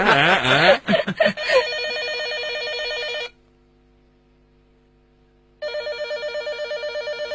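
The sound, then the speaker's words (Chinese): A telephone bell rings in two long, even bursts separated by a silent pause, with brief agitated voices just before the first ring. “电话， 我接， 镇静儿，镇静， 我接我接。”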